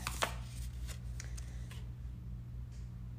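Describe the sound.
Faint papery flicks of a card being drawn from a question card deck: a few soft, brief rustles over a steady low hum, with no talk.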